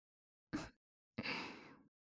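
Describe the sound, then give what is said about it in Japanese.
In ASMR role-play, breath is blown gently into the ear in two soft puffs. The first is short, and the second is longer and trails away, with silence around both. “旦那様のお耳の中に息を送り込んであげる。ふぅふぅってしてお掃除しやすくする。”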